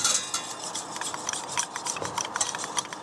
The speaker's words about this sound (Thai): แล้วก็จะมีตะกร้อนะคะเอาไว้คนนะคะ